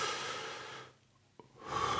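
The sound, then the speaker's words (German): A deep breath, a long rushing inhale followed by a brief pause with a soft click, then a full airy exhale beginning, close and fairly loud. “nehme ich mir die Zeit, atme einmal wirklich tief ein”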